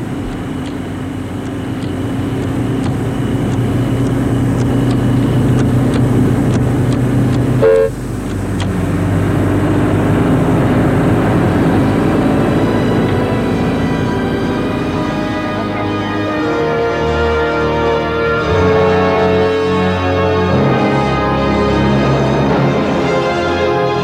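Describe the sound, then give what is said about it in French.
A chauffeur-driven car drives through deserted streets with a loud, continuous engine and road drone. A brief dip interrupts the steady rumble early on, and the sound runs unbroken to the end with no voices. “Le chauffeur roule dans les rues désertes.”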